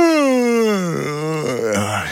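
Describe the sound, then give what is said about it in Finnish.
A long, loud human yawn whose voiced pitch slides steadily downward, then wavers lower into a breathy, groaning tail. “Haukottelu on tarttuvaa.”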